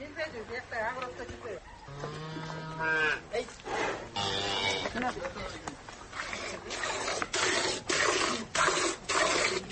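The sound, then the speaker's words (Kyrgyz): Cows and calves mooing at milking time as they are tied up, several drawn-out moos rising out of a busy, fairly loud farmyard background, with human voices mixed in. “Биз издеп барган убакта ал кайын энеси менен музоолорун байлап уй сааганга даярданып атыптыр.”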